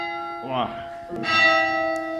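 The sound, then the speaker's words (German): Church bells are struck electronically by small plungers and played from a keyboard two floors below. Two clear strikes land a little under a second apart, each ringing with a bright, sustained metallic tone that hangs on after the stroke. “Hier steht ein Keyboard. Damit wird das gespielt? Das wird elektronisch, gehen die Signale quasi zwei Stockwerke hoch. Und oben werden dann an den Glocken quasi so kleine Stößel bewegt.”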